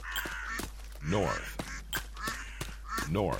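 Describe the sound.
Ducks quacking near an old mausoleum: a few loud, nasal quacks rise out of a steady background hum, with quieter calls scattered between them.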